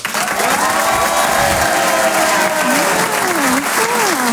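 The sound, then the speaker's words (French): Audience applause with cheering and whoops greets a comedian's entrance at a live stand-up comedy show. The clapping is loud and dense and runs steadily throughout without a break. “Allez, on y va, on refait ça! Un maximum de bruit pour Nawel Madani”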